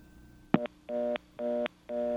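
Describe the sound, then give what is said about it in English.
After a 9 is dialed, a Kellogg step switch on a telephone line gives a sharp click and a short buzz. Three evenly spaced, steady, buzzy tone bursts follow, faint and alone on a quiet line. “Kellogg step switch. Hear it dialing? Okay, now I guess I can dial a number. Let me dial a 9.”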